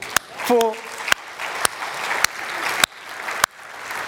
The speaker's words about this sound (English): could you please give yourselves a round of applause